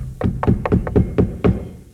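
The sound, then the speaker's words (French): Knocks on a stage floor signalling the start of a theatre performance of Numance: a series of dull, low wooden thumps in an uneven rhythm, each short and fairly loud, with no voices. “Les trois coups. Et le rideau se lève devant les murs de Numance.”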